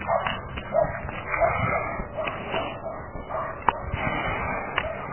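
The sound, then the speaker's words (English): Dogs barking outside along a small road in below-freezing cold, with repeated muffled barks and yips, some whimpering, and irregular bursts. “Didn't used to have any dogs on this little road.”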